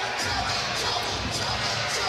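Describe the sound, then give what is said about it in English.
A big crowd at a Wisconsin Badgers–Indiana Hoosiers basketball game at the Kohl Center on a cold January Friday night. The steady, diffuse murmur of many voices rolls on without distinct cheers. “we are ready for basketball in front of a big crowd here at the Kohl Center on a Friday night”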